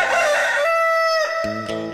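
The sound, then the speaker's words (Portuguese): A rooster crows at dawn in the town of Vazante: a single loud, drawn-out cock-a-doodle-doo whose harsh opening settles into a long, steady held note before fading. “Olha aí o cantinho do galo, hein?”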